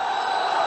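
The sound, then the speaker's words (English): A dense roar of around 2,000 protesters shouting in a northern Egyptian city, a steady wash of many voices with no single call standing out, loud and unbroken for under a second. “This is the sound of around 2,000 protesters in the northern Egyptian city of Mahalla, recorded by Al Jazeera News.”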